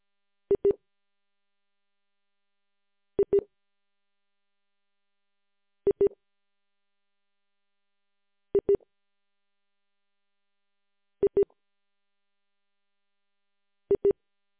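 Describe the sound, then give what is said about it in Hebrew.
Telephone ringing tone while placing a call: six evenly spaced double pips, each short and mid-pitched, repeating about every three seconds over silence. “אני רוצה להתקשר של הרב זונדל, שהסיפור המדהים הזה יישמע בציבור.”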